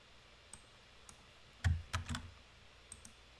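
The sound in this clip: Computer keyboard typing: a short, quiet burst of several clustered key clicks in the middle, with a few isolated faint taps before and after.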